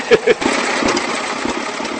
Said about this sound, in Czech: Já vidím, že se podařilo nastartovat. Vy tady startujete to autíčko jak šlape. Jak hodinky.